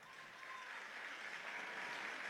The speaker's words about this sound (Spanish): Aplaudan solo uno.